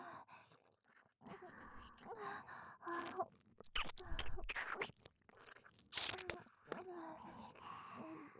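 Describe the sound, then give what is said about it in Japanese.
Ear licking: faint, wet slurping and smacking sounds come in short bursts, mixed with soft breathy sighs and moans from a close, intimate voice. “エッチな僕がエッチな耳舐めをさせていただきます。”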